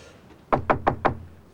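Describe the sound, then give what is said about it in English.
Knocking on the front door of a snow-covered suburban house: four firm, evenly spaced knocks with a hollow, wooden thud, heard alone in quiet surroundings. “He gets out, walks up to one of the pretty snow-covered houses, and knocks on the door.”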